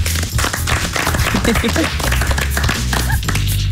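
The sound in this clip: Iceland national football team players clap as a teammate introduces himself, many sharp claps and taps mixed with talk over a low hum.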